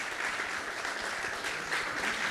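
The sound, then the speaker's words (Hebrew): An audience applauding a rabbi: dense, continuous clapping at a steady level, an unbroken round without voices standing out. “כפיים לרב, מגיע לו כפיים לרב”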